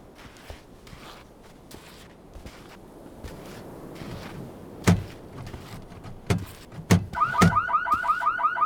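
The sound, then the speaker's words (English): Security system alarm going off: a loud, rapidly repeating warbling electronic tone starts near the end and keeps cycling, preceded by a few scattered thuds and footstep-like knocks. “Is that awful noise? Sorry, that's my fault. I didn't tell you about the security system.”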